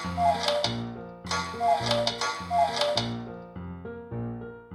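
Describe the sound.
A cuckoo clock on a mantelpiece in a priest's house sounds a few short two-note descending calls. The calls repeat at intervals over a sustained musical backing.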